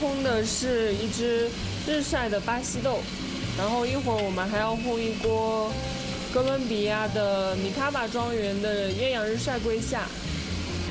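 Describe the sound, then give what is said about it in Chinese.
Mechanical whirring of a coffee roaster roasting sun-dried Brazilian beans runs steadily throughout under continuous talk. “我们烘的是一支日晒的巴西豆”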